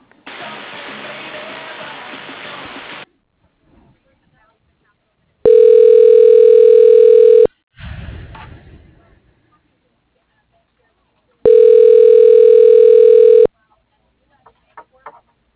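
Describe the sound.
A telephone line tone plays while a call is transferred to voicemail: two loud, steady, pitched tones of about two seconds each, separated by quiet gaps, after an opening stretch of hiss and with a short noisy burst between them.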